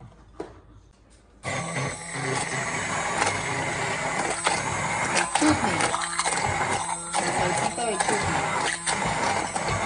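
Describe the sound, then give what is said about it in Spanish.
Electric kitchen grinder whirring as it grinds a spice mix with a teaspoon of ground ginger powder; the motor starts abruptly after a short quiet stretch and runs loud and steady, its noise pulsing slightly. “Entonces, como nos gusta el sabor del jengibre, le pusimos un poquito más, en total una cucharadita de, jengibre, de polvo de jengibre. Y ahora lo vamos a moler con la cosa esa.”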